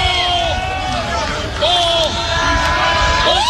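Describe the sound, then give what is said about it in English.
A crowd cheers at a Husker baseball game, its broad roar and murmur running under a commentator's voice and swelling a little partway through as a pitch misses the zone. “with every pitch out of the zone, the crowd gets a little bit louder and louder.”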